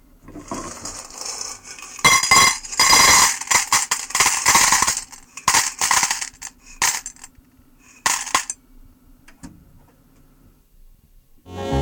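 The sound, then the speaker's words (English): Five dollars' worth of nickels jingles and drops in many irregular bursts of bright metallic clinking, with brief quiet gaps between handfuls and a last rattle at the end. “listen once again to the $5 worth of nickels that I brought for the opening sound effects”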